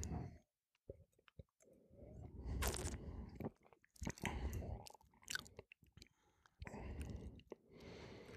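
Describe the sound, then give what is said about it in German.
Sipping and slurping a 2014 spring wine during a tasting: a few wet, noisy slurps and swishing bursts with short quiet gaps, fairly soft overall. “Ich mal einen Schluck.”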